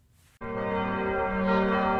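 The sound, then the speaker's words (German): Church bells of an abbey church in Tholey, Germany, ring out over a small plain market square. They burst in loudly after a short quiet start, then hold as a dense, sustained wash of ringing overtones with no voices. “Glockengeläut der Abteikirche St. Mauritius in Tholey erfüllt den kleinen schmucklosen Marktplatz der Gemeinde.”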